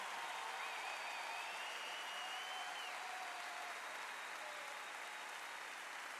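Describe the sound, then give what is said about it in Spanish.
Sustained audience applause for two female performers, an even, hissing wash of many hands clapping that stays faint and constant throughout, with no voices standing out. “Fuerte, fuerte el aplauso, por favor.”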